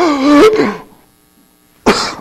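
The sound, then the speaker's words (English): A person gasping and coughing after inhaling a fly: a strained, voiced choking sound, a short silence, then a loud, harsh cough burst. “I think I inhaled a fly.”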